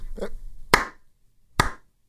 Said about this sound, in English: Give you a teen movie slow clap.